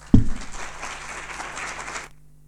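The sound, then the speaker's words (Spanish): Audience applause welcomes a speaker opening a history lecture. It begins with a sharp low thump, then holds as steady, dense clapping for about two seconds before stopping abruptly. “La recibimos con un fuerte aplauso.”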